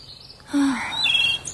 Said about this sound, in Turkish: Sanki kuşlar bile burada daha bir farklı ötüyor.